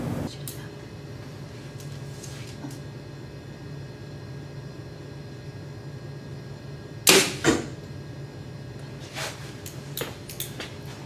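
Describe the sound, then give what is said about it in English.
Arrows shot from PSE bows at an archery range, with a few sharp, loud release snaps in the second half over faint, steady background noise. “here at an archery range shooting our PSE bows”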